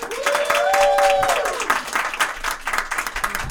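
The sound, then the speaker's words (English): Audience applause welcomes a comedian onto the stage at a Comedy Town show at Cafe Kerouac: dense, sustained clapping that stays loud and steady, with a few sharper bursts near the end. “So put your hands together for Luke Swisher.”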